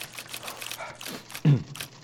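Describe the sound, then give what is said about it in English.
Faint clicking and ratcheting of a Remington typewriter as two sheets of paper with carbon paper between them are rolled into the carriage, with one heavier thump partway through. “Returning to his desk, Denman rolled two pieces of paper, separated by carbon paper, into the Remington typing machine.”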